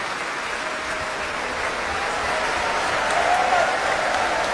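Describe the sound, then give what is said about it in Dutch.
A concert audience applauds the solo oboist and clarinettist, a sustained, even patter of many hands that grows slightly fuller toward the end. “Groot applaus nu voor Alexei Ogrinchuk, de solo-oboist. En ook voor klarinetist Carlos Ferreira.”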